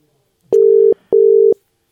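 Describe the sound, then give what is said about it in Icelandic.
Telephone line tones while placing a call: two identical steady, mid-pitched pulses, each just under half a second, separated by a short gap, alone and loud. “Ætlum að hringi þannig hérna, Gilsenegger, Egill Einarsson. Hvort hann svarar ekki.”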